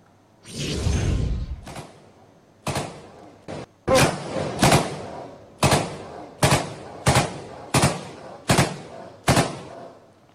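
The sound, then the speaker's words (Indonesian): Gunfire in an exchange between Indonesian TNI soldiers and armed separatists in Papua: after an initial rushing burst, many sharp, loud shots crack out one at a time at fairly regular intervals. “Proses evakuasi sempat diwarnai aksi kontak senjata antara prajurit TNI dan kelompok separatis bersenjata.”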